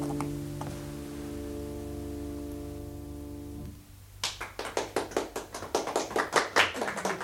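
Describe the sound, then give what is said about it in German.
Applause after a song is sung in a radio play: a sustained musical chord fades out, then individual hand claps start up and quickly thicken into brisk, rhythmic clapping that grows louder toward the end. “Die Trippelli hatte den Herrn Oluf mit großer Sicherheit und Bravour gesungen und erntete nun allgemeinen Beifall.”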